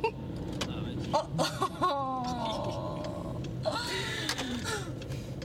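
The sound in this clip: Car interior with a steady low engine rumble under the voices of two friends talking while drinking Monster energy drinks, their speech carrying over the constant road noise.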